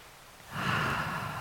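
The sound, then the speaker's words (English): One big, deep breath taken during a calm relaxation exercise: quiet at first, then a long, steady, breathy rush of air that swells and holds to the end. “Taking another big breath,”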